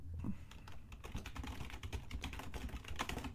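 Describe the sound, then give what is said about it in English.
Typing on a computer keyboard makes quiet, rapid, uneven clicking. Many keystrokes run in quick bursts, with no voices. “Type, type, type, type, type, type, type. Yeah, I'm sending him a response asking if he's gonna try to reconnect or if we should just go on.”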